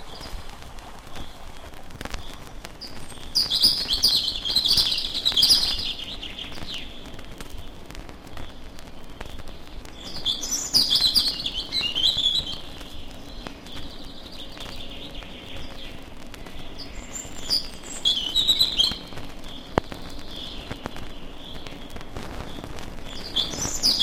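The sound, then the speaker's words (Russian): Chaffinch and robin singing in the distance, faint high chirping phrases that come in a few separate bursts over a steady quiet background. “Зато вдали поют другие птицы. Зяблик, зарянка.”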